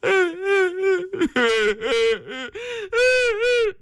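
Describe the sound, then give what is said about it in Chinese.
A voice imitates a father and daughter crying, a loud run of wavering, sobbing wails in many short bursts broken by brief catches of breath. “父女俩又哭了。”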